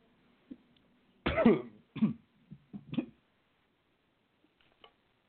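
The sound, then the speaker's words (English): A coughing fit: a run of harsh, raspy coughs in quick succession, the first burst longest and loudest, followed by several shorter coughs and a faint click near the end, with no talk. “I took a coughing fit there.”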